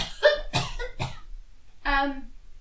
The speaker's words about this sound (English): I'll cough at her.